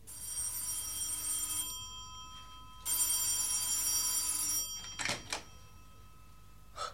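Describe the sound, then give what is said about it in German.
A telephone bell rings at night, around two in the morning, in two long, loud bursts separated by a short pause, followed by a few brief clicks. “Nachts um 2 etwa schreckte mich das Telefon aus dem Schlaf.”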